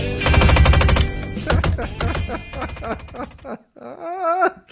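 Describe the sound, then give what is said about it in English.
Failing window actuators clatter like gunfire: a fast burst of many sharp clicks, then irregular bursts of rattling, with a brief voiced sound at the end. “My window actuators are going out, so it sounds like I'm having a hell of a firefight in here.”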